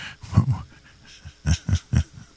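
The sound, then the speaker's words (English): A dog pants, upset after someone hit the table, making a few short breathy huffs, a quick pair followed by a run of three. “I just got my dog upset hitting the table like that.”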